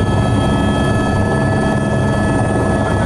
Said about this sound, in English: We've been flying for about an hour. As we make our approach into Kathmandu Airport